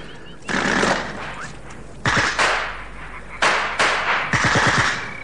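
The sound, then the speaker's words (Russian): Automatic gunfire near a marsh at dusk: four loud, sustained bursts with sharp starts and rapid rattling shots, spaced a second or so apart, with no talk. “Кто стрелял, в кого?”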